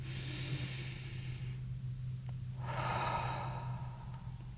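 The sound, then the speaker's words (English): Deep breathing during a guided mindfulness grounding exercise: two long, airy breath sounds separated by a short pause, over a faint, steady low hum. “I invite you to join me in taking a breath.”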